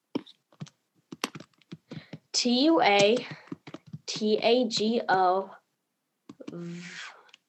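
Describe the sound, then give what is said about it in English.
Quick clicks of typing on a computer keyboard: a short irregular burst of keystrokes at the start, then a voice talking over a few scattered taps. “I'm just going to type it in.”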